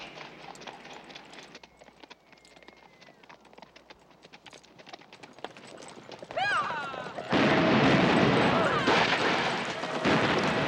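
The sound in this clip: Hoofbeats of horses riding out of a canyon, a steady clip-clop that builds gradually. A horse whinny cuts through midway, then a louder burst of rushing noise takes over.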